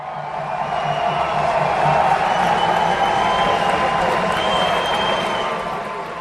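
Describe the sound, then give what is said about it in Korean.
Crowd of French revolutionaries storming the Bastille, a dense, sustained roar of many voices shouting together, loud and steady from start to finish without a break. “거친 함성이 울려 퍼지면서 군중의 파도는 도시 밖으로 흘러넘쳤다.”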